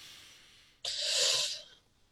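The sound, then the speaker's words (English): A single deep inhale: a breath drawn in for about a second, a soft, airy hiss that swells and then tapers off, heard alone after a quiet pause. “Breathe in.”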